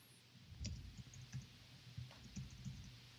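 A message is typed into a chat on a computer keyboard: faint, irregular key clicks, a few soft taps spread across a quiet background.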